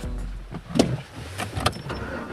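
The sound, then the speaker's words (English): Vehicle sounds from a farm truck in a Newfoundland and Labrador town: a steady low rumble broken by a few brief clunks and whirring bursts, with no talk. “Truck is not clean. This is a farm truck.”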